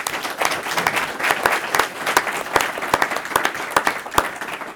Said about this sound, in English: Let's give it up for our panelists.